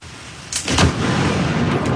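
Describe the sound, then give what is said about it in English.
Thunder from a close lightning strike that hit a tree in a park during a rare thunderstorm in North Vancouver: a sudden loud crack about half a second in, then a heavy, sustained rumbling boom that keeps rolling to the end. “One flash, one boom, and one very startled camera operator.”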